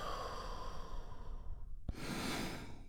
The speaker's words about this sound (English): We begin by taking a big, deep, healing breath all together. Here we go. And release.